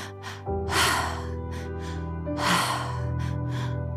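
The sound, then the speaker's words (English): Mouth breathing in a three-part breath pattern: a series of airy, breathy inhales and exhales with two louder, longer gusts among softer ones, over a steady low drone. “It's our three-part breath pattern using just the mouth.”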